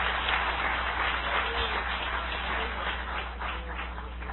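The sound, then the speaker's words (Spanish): An evangelical audience gives a sustained round of praise applause. The dense clapping is fairly faint and steady throughout, with no clear talk over it. “Dale un aplauso de alabanza al Todopoderoso.”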